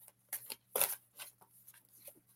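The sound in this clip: Soft shuffling of a deck of cards before a card is pulled for a reading. A few faint, papery riffles and brushes include one louder flurry, with no talk.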